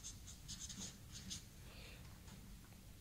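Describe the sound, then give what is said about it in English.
Handwriting with a pen on paper: faint, soft scratching strokes in short bursts, with a quiet hiss in the background. “I have to write it down.”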